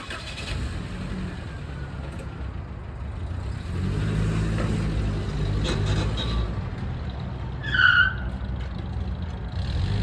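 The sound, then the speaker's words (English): A car engine rumbles as the car drives away, a low continuous drone that grows fuller partway through, with a brief high squeal near the end. “Well, I just drove up, and now I'm gonna drive away.”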